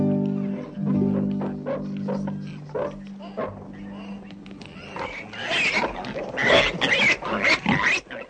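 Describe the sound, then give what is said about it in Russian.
Pigs grunt and squeal in a busy, irregular chorus of rough snorts and shrill cries that grows louder and denser toward the end. “Кабы святой Витольд поразил проклятьем этих поганых свиней.”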